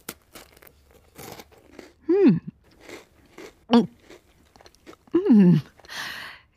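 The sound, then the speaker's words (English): Someone bites into and chews a dark, peat-coloured Christmas cake dusted with icing sugar: a few soft crunches and moist chewing sounds, broken by brief voiced murmurs of enjoyment, fairly quiet and without talk. “Listen, I can't resist. I'm going to have a bite.”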